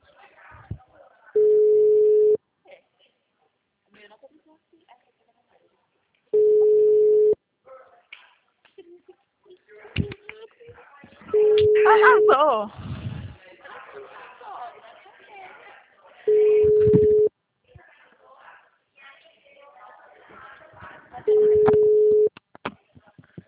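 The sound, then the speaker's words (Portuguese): A telephone ringback tone heard while calling someone: five steady, mid-pitched beeps, each about a second long and spaced roughly five seconds apart, with voices heard in the gaps. “eu vou ligar para esse Paulo.”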